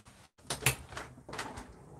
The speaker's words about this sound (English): I'm going to open a window because I'm really hot.